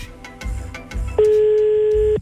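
Telephone line tone while calling someone back: a few short clicks, then one steady, loud, high tone held for about a second before cutting off.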